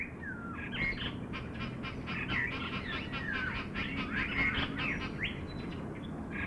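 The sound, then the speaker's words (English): Many birds calling at a zoo during breeding season: a dense, continuous chorus of overlapping chirps, whistles and harsher calls that stays steady and fairly loud throughout. “We get almost all the birds that are this time of year in the breeding season calling and vocalizing.”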